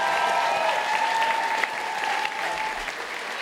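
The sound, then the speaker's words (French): Studio audience applause for an a cappella song on a French TV show, a steady, dense clapping that holds at an even level throughout without pause. “Ça, il y a eu des applaudissements. Oui, on peut l'applaudir.”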